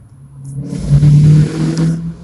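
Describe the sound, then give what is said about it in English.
A truck passes by with a low engine rumble that swells to a loud, steady roar and then eases off slightly, with no voices. “Excuse the noise. I'm sorry. Some truck going by.”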